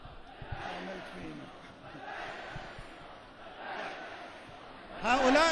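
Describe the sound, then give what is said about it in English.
A single person in the crowd chants during a speech about Iran and the Arab countries: a sustained, rough, voice-like roar with crowd noise beneath it, and a man speaking clearly at the very end. “My dear brothers, you, the Arab countries, one person in the crowd apparently chanting,”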